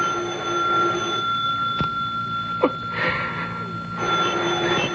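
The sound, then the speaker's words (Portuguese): A telephone rings on and on without stopping, a steady, bright ringing tone that persists through the whole stretch over a faint noisy background. “É ela de novo. Eu não vou atender. Eu não vou atender. Mas essa campainha que não para de tocar,”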